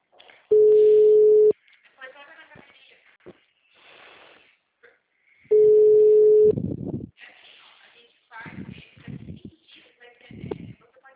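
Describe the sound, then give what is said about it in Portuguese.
Two long, steady low telephone busy tones are separated by a pause, each lasting about a second, with a recorded Portuguese voice speaking after them. “Sua chamada está sendo encaminhada para a caixa de mensagens e estará sujeita a cobranças após o sinal. O número está ocupado.”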